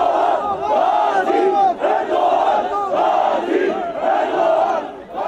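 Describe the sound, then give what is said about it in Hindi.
A crowd chants anti-government slogans at the scene of bombings in Turkey that targeted pro-Kurdish HDP supporters. Many voices shout loud, continuous, rhythmic phrases together for the whole stretch, with brief dips between phrases. “धमाकों के बाद घटना स्थल पर सरकार विरोधी नारे भी सुनाई दिए।”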